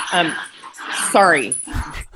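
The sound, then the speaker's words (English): Dogs whimper and growl: high wavering whines and yips rise and fall, followed by a few low, rough growls near the end. “somebody's getting mauled in the background. Yes. We have wild dogs that have come in. I apologize.”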